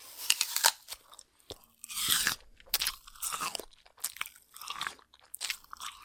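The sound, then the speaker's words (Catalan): Someone bites into curious fruits from a tree and chews them. Many crisp, wet crunches come in an uneven rhythm, loud and close, with short pauses between bites. “Quins fruits més curiosos! Els vols provar? Sí!”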